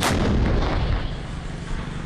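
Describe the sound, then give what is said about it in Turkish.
Artillery fire striking regime targets in the Idlib region: one sharp, loud blast opens, then a heavy low rumble rolls on steadily without a break. No voices are heard. “Saldırıya misliyle karşılık verildi. İşte rejim hedeflerinin vurulma anı.”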